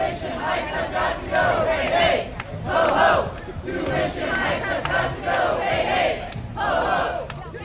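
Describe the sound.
Students at a tuition protest outside Concordia's GM building chant together on a warm, breezy afternoon, the massed voices swelling in repeated rhythmic phrases separated by short dips.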